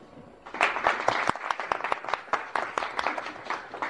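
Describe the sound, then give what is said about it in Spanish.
An audience applauds seven contestants at a competition. Dense, steady clapping swells in after a brief quiet start and keeps going at an even level, with no voices over it. “Y muchas felicitaciones y con más, más aplausos para estos siete concursantes.”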